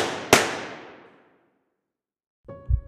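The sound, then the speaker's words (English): A single sharp gunshot cracks out and decays slowly over about a second, then silence, then a brief low, tonal thump near the end. “Who fired those shots?”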